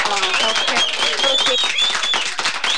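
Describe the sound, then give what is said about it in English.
An audience claps for a volunteer being honored by the Montana Healthcare Association, a busy patter of clapping with voices mixed in throughout. “Yeah, I just thought we'd get a little applause going for her there.”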